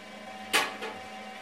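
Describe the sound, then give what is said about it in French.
A cone winding machine unwinds yarn bobbins from a twisting machine onto a cardboard cone. Over a low, steady mechanical hum come one sharp clack and a softer second knock shortly after. “Donc c'est une machine sur laquelle on va mettre les bobines qui viennent de la retordeuse. On va dévider ces bobines pour les enrouler sur un cône en carton.”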